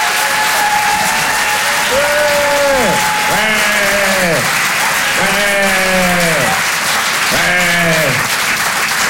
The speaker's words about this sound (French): Et je vous demande de faire un maximum de bruit et de l'encourager très chaleureusement.